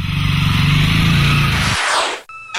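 A motorcycle rides off along a small-town street, its engine a steady, throaty drone that gives way to a falling whoosh before fading to quiet and a brief final noise.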